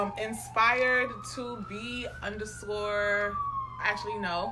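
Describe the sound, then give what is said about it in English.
A siren wails behind people who are talking, its steady tone climbing slowly and then easing back down beneath their voices. “I'm sorry for this loud-ass siren behind us.”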